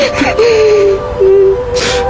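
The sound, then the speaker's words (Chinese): A woman crying: drawn-out, wavering moans with sharp gasping breaths at the start and end, loud and alone. “老婆，别哭了。”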